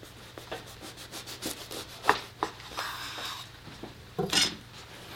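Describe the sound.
A knife cuts a humongous lettuce and turkey Swiss sandwich in half with faint, soft rasping strokes, then a few louder scrapes near the end.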